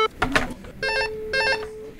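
A dropped telephone call, with the line disconnected. Two steady electronic beeps, each about a third of a second long, follow a brief burst of sound at the start.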